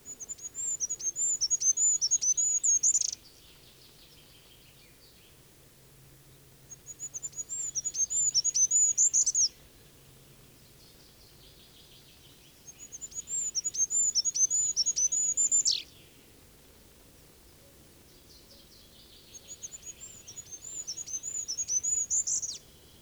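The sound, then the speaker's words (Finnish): A goldcrest, a tiny bird of spruce woods, sings four very high, thin, trilling phrases of about three seconds each, separated by pauses, over a faint low background rumble. “Hippiäinen, tiaisten sukulainen, on maamme pienin lintu.”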